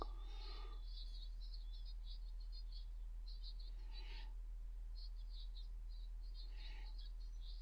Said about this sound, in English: we're in the fucking jungle. Deal with it. It's an owl.